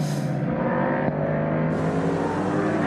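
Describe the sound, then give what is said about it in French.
A racing motorcycle in an endurance race nears the pit lane for a rider change, its engine a loud, steady, dense drone throughout with no clear pauses. “Avant la rentrée au stand de Reiterberger, voilà, qui lève le pied, qui prévient derrière lui,”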